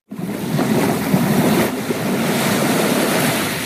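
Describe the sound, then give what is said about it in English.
Waves washing on a rocky, sandy shore, a steady rushing wash of surf that holds fairly even throughout, with no talk. “Can we play the wave? Can we hear the sand and the wave?”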